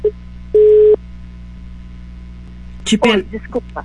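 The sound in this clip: An incoming-call alert on a phone line: one short, loud, steady beep sounds alone over a low hum, and after a pause a person talks.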